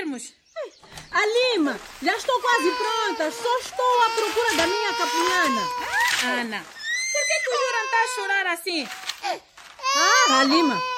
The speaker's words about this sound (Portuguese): Chora muito. Mas será que ele tem fome? Não. Mamou bem.